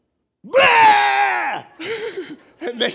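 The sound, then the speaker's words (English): A voice imitates God yelling as he leans out over the Egyptians from a cloud: one long, drawn-out groaning shout, then two shorter, wavering bursts. “Literally, in the Hebrew, it has the essence of like somebody who leans out a window and yells. So this is God, right? He's like flying in the cloud over the top of the Egyptians.”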